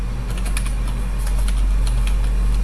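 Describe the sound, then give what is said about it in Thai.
Rapid typing on a computer keyboard produces many quick, light clicks in an uneven stream over a constant low hum. “หรือถ้าเราจะพิมพ์ยาวๆเราก็ต้องพิมพ์แล้วก็เว้นวรรคข้อความไปเรื่อยๆนะคะ hello กัญญารัตน์”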